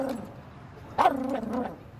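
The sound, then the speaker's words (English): A dog lets out one sharp bark followed by a drawn-out whiny yelp, fairly faint and alone. “What are you? Some kind of freak show circus dog?”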